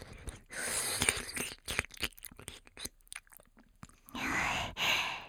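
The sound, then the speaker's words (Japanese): ASMR ear-eating mouth sounds: wet chewing, nibbling and crunching close to the ear, coming in irregular soft clusters with a few longer breathy swells. “お耳食べるのやめちゃおう。”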